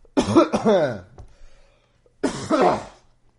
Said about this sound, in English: Sorry, I'm getting a little throat thing going on.